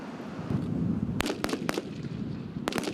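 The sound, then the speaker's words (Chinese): Gunfire cracks out during a military drill simulating an enemy beach landing at Guanyin beach in Taoyuan: a few sharp rifle shots, three in quick succession and then a pair, over a steady low rumble. “枪拿出来，上准目标就要开始弹。模拟强军抢滩上花，国军伫咧进行反击。”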